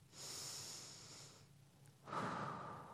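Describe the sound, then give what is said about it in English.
Two slow, deep breaths are heard, each long, soft and airy, with a short pause between them and no other sounds. “As we settle down at the end of the day, we might take some deep breaths.”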